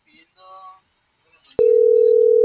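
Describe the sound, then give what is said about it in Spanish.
A steady telephone tone sounds while a number that goes unanswered is redialed, starting abruptly after a few faint murmurs and then holding loud and unbroken at one pitch. “Ya te la estoy marcando otra vez igual, pero no.”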